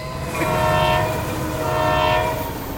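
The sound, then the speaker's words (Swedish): A Swedish X2000 high-speed train passes: a loud, steady rushing rumble with a sustained tonal whine that swells and eases slightly, heard alone without talk. “Ljudet av X2000 som du bara ser sista vagnen av nu.”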